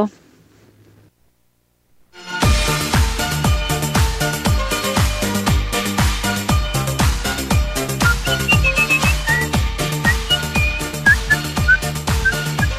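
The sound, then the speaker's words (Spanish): Whistled melody in a song by a band of local musicians from Bariloche, entering after a short near-silent start over steady drums and full instrumentation, with thin high whistled lines standing out in the later part. “Esa. Esos silbidos.”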